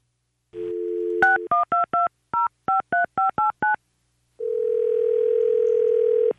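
A telephone being dialled to place a call: a steady dial tone, then a quick series of short touch-tone key beeps, a pause, and a long, steady tone that holds to the end.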